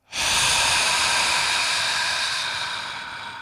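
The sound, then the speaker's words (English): A slow, forceful exhale after a deep breath: one long, breathy hiss of air that starts sharply, holds strongly, then gradually fades over about three seconds, heard alone. “I want you to blow it out really slow but forcefully.”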